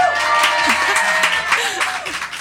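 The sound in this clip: An audience gathered in a bookshop calls out greetings to the hosts: many overlapping voices rise together into a loud, lively crowd murmur that carries steadily through the moment.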